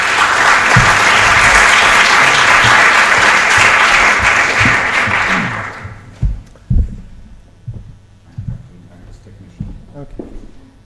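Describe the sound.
Audience applause welcomes a speaker to a talk: dense, steady clapping for about six seconds, then it dies away and leaves a few scattered knocks and rustles.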